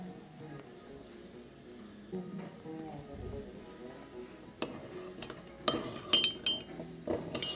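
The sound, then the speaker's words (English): A utensil clinks against a glass or ceramic dish while black pepper, red pepper and paprika seasoning is stirred. A quiet stretch comes first, then a few sharp, bright clinks in the second half. “black pepper, and paprika. And now I'll stir that up a little bit”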